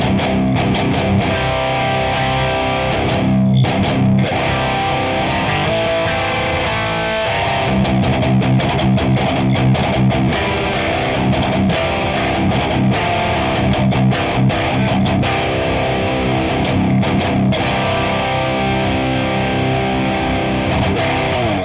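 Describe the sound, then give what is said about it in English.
Distorted electric guitar runs through a Boss IR200 in stereo with an UberShell 75 cabinet, played continuously and loudly as a dense, driven wash of chords and notes. “Our Boss IR200 in stereo sounds like this.”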